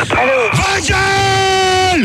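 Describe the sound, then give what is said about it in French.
A caller shouting during a heated debate: a loud, sustained yell held mostly on one pitch that drops away at the end. “Arrête de crier.”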